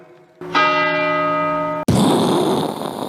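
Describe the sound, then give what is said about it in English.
A gong rung after names are read out gives a bright metallic tone that sustains with rich overtones, then a second, harsher and noisier crash cuts in and rings on. “This gong rings out.”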